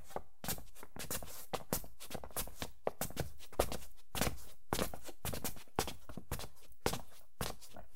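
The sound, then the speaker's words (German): Footsteps climb stairs in a monastery, many firm steps falling in a steady, even rhythm. “Wir müssen nur die Treppe hoch und dann sind wir gleich da.”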